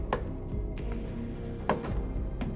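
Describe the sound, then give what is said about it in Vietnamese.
High-heeled shoes click as footsteps in a horror story scene: a few sharp, spaced clicks over a low rumbling backdrop. “Sau đó là tiếng giày cao gót lộc cộc vang lên từ sau lưng.”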